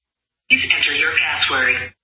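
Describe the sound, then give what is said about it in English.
A voicemail greeting plays through an iPhone that has dialed its own number. It comes as a thin, band-limited voice from the phone speaker, lasting about a second and a half. “what you're hearing there is what you would expect, yeah. Which is when you call your own number, it's calling your own voicemail.”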